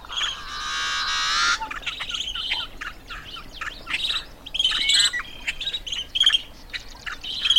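Yellow-headed blackbird song: a long, harsh, buzzing rasp, followed by many short chirps and scratchy calls from birds.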